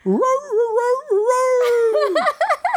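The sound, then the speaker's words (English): A dog imitating a rooster's crow with a long, loud, harmonic howling call that climbs, holds steady, then drops, followed by a few short, sharp yelps. “it was a dog imitating the rooster. And doing a really good imitation.”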